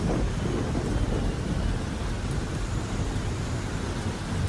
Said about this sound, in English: Wind is beginning to thrash, branches falling, trees, the smaller ones being completely uprooted.